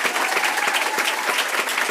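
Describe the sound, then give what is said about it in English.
Audience applause at a school board meeting as a honored teacher is recognized: dense, continuous clapping from many hands, steady and fairly loud for the whole stretch, with no voices standing out. “Let's give a big round of applause again for Mrs.”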